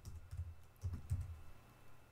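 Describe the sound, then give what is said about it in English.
Soft keystrokes on a computer keyboard as a Google search is typed, a few quiet, irregular bursts of clicking with short pauses between them and no voices. “Let's just go to Google. If you type in entry level”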